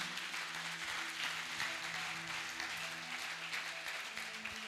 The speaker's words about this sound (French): est-ce que tu peux acclamer Dieu